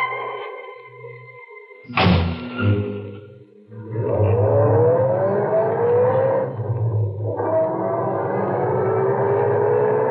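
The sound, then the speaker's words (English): A car pulls away at night from a service station. A thump comes first, then a steady engine roar whose pitch climbs, dips briefly and climbs again. “We drove away into the night, leaving behind us the dead man in the service station.”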